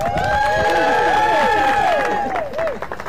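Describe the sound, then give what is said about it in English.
Wedding guests at a ceremony cheer loudly, whooping and clapping in a lively burst. The noise holds strong for a couple of seconds, then trails off into scattered calls. “I like it when it's personal, don't y'all, crowd? Give us a cheer.”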